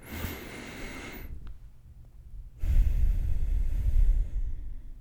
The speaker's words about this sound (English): Just take a deep breath in and out.